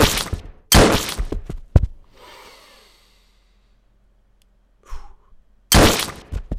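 Gunshots fired by a group of men: a few loud, harsh blasts in quick succession, then a quiet stretch with faint hiss, a short softer noise, and one more loud blast at the end.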